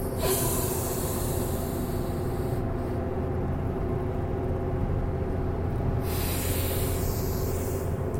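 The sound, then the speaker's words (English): A deep breath pushed out in one long, forceful exhale during a breathing test: a loud, steady rushing hiss that runs without a break, with no talk. “try to hold that at the top and then exhale. All right, if you don't like doing it through the nose, do it through the mouth.”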